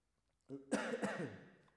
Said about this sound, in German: Da war sie wieder, meine Krankheit, mein Husten.